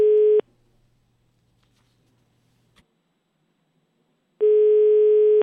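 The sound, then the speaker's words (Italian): Telephone line tone while placing a call: a steady harmonic tone cuts off after a fraction of a second, then a long silence broken by one faint click, then the same tone returns for about a second. “Aspetta, fammi chiamare, dai, chiamate Toscani.”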